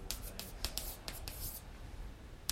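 Handwriting scratches across a board during a programming lesson, a string of faint, dry strokes and taps of varying length over a soft hiss.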